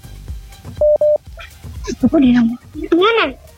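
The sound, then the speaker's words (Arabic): Two short, steady, identical telephone tones as a new call is placed after a dropped line, followed by people talking. “انقطع الاتصال ويا صهيب. زين ناخذ اتصال آخر، نقول ألو.”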